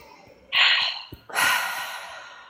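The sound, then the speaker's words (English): A single deep breath during a guided self-acceptance exercise: a sharp, airy inhale, a brief pause, then a longer exhale that gradually fades. “Deep breath.”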